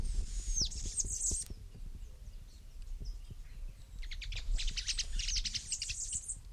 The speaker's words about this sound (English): Two birds calling.